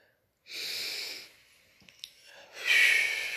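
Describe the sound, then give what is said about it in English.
Slow breathing in and out during a children's meditation exercise: two long, airy, hissing breaths separated by a quiet pause holding a few faint clicks, with no talk. “And let's breathe. In.”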